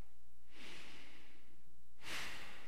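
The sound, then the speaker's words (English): A deep breath, faint and alone: a long, airy inhale is followed after a short pause by a sharper, brief exhale. “let's all take a deep breath.”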